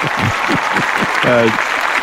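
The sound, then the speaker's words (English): Applause from a studio audience: steady, dense clapping fills the whole stretch, with people talking over it. “applause and everything. Wow. Oh yeah. Oh yeah. So the crowd gets. I didn't know you had a studio audience.”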